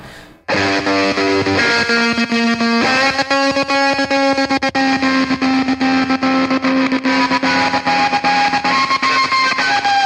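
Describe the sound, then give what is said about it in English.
Heavily distorted fuzz-box guitar track with effects and sampled sounds: after a brief quiet start, loud sustained droning notes ring out, shifting in pitch, with a saturated, buzzing tone throughout. “they were sort of scratching and transforming with all sort of Hendrix sounds and stuff and samples. So I did a track just basically, I could do it with a fuzz box”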